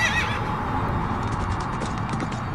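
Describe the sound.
A horse's high, shrill whinny opens, then a dense, steady rumble of many hoofbeats continues loud and unbroken while the horse is ridden at speed.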